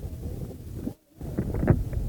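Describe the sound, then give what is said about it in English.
Wind blowing across a campus while someone walks, a rumbling, buffeting gust noise on the microphone that stays fairly steady, broken once by a brief near-silent gap. “I'm walking back to WSSR now, can you hear the wind blow?”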